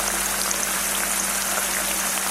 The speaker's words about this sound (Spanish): Seguidamente, ponemos a calentar en una sartén 4 o 5 cucharadas de aceite de oliva. Cuando esté caliente, añadimos los ajos laminados y la guindilla.